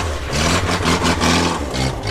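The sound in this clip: A small car's engine revs and idles during a driving test around a tight obstacle course, a low, continuous droning hum whose pitch shifts up and down in short surges, holding a fairly even loudness throughout.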